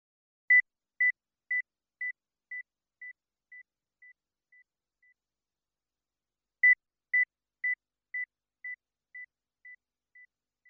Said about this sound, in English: You will hear a 2000 Hz tone in 10 decreasing steps of 5 decibels. Count how many steps you can hear.